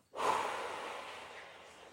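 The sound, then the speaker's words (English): One long, slow, deep breath drawn in through the nose during a relaxation exercise. It is soft and airy, with a quick onset, and then holds steady as it gradually tapers. “So, breathing in, all the way in through your nose, and then breathing out”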